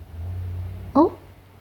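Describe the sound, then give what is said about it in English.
A truck drives past as a low, steady engine rumble, fading out shortly before a brief, sharp voiced sound breaks in near the end. “There's a truck driving past.”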